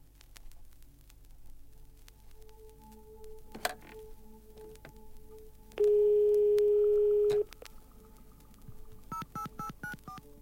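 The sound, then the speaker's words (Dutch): Dutch PTT Telecom telephone network tones from around 1989: one loud, steady, long tone, then a run of short, rapid pulsed tones, all over a low static hum. “En tenslotte de klanken van PTT Telecom. Nou, daar gaan we naar luisteren.”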